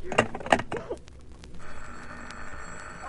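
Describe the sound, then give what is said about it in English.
A telephone bell ringing in a dramatized scene: a continuous buzzing metallic ring at moderate level that follows a few short vocal sounds at the start. “Stop ringing me, do you hear?”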